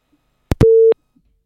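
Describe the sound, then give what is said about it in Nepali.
A busy tone after a phone call-in disconnects: two sharp clicks, then one short, steady, high beep, alone with no voices. “उहाँसँग पनि कुराकानी गर्ने बेलामा phone disconnect भयो”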